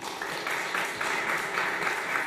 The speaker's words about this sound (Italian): sei svegliata con l'applauso